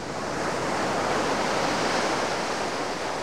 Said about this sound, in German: ich gehe gerade über das Land und da vorne ist schon das Meer